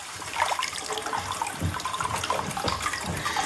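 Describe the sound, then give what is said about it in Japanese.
Free-flowing hot spring water, slightly lukewarm and thick, pours into a bath as a soft, steady, faint stream of splashing and trickling with no pauses. “かけ流しですって、こう、源泉。ね。ちょっとぬるめになってますが、このね、とろっとしていますよ、ちょっとお湯がね。”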